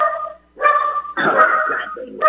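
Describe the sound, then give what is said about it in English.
A dog barks in a few drawn-out, high, yappy bursts, loud and insistent, with almost no pause between the later barks. “yeah, stop that. No. Get that dog a biscuit.”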